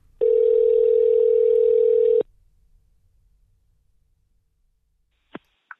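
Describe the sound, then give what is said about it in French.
Telephone dial tone while a call is being placed: one steady, even tone that holds for about two seconds and then cuts off. Near-silence follows, broken by two brief faint blips at the end. “J'appelle Anne-Marie Moulin.”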